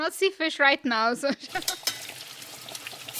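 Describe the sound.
Eggs fry in butter as a feast is cooked. A voice is heard at the start, then a steady crackling sizzle with scattered pops and light clinks fills the second half.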